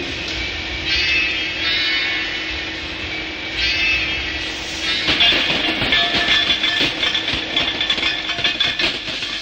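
Steam train engine puffing along: a steady hissing rumble that turns into a fast, regular chugging pulse partway through and grows louder and more rhythmic, with no voices.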